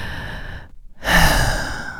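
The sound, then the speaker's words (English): A deep breath: a steady airy inhale, a short silent pause, then a louder, fuller exhale that trails off. The breathing is heard alone. “Take a moment to breathe, which feels so simple.”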